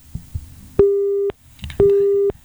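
A telephone busy tone follows a cut-off phone call: two steady, identical beeps of equal length, separated by a short gap, with faint clicks before each.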